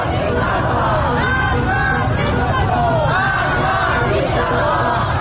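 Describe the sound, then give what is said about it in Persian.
Dense crowd of young protesters chanting slogans against the dictator while holding hands in a circle on Sepehr Street, Tehran; many voices overlap in a loud, continuous roar throughout. “در آن سوی شهر در خیابان سپهر تهران معترضان جوان دست یک دیگر را گرفتند، حلقه بستند و شعار مرگ بر دیکتاتور سر دادند.”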